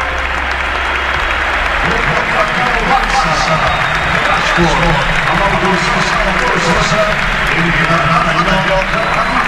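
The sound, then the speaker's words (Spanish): At Camp Nou, a football crowd on its feet applauds and chants the name of the player Rafinha as he leaves the pitch. Loud, continuous clapping blends with massed rhythmic chanting, sustained for the whole span. “El público en pie, Rafinha. El público en pie coreando el nombre de Rafinha.”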